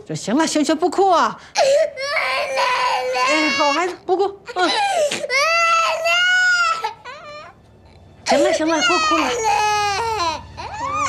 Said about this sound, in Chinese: 行了，不哭啊！好孩子，不哭。行了，不哭了。